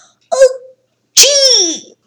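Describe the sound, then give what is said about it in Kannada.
A voice imitates an old man and old woman sneezing loudly together: a short voiced intake, a brief pause, then a sharp burst trailing into a long, falling voiced tone. “ಅಂತ ಸೀನಿದ್ರು. ಅಜ್ಜ ಅಜ್ಜಿ ಸೀನಿದ ರಭಸಕ್ಕೆ ತೂಕಡಿಸ್ತಾ ಇದ್ದ ಕರಡಿಗೆ ಯಾವುದೋ ದೊಡ್ಡ ಪ್ರಾಣಿ ಬಂದ ಹಾಗೆ ಭಾಸವಾಯಿತು.”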